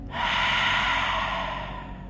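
A deep exhaled breath during a guided breathing exercise, one long airy rush lasting about two seconds that eases off slightly at the end.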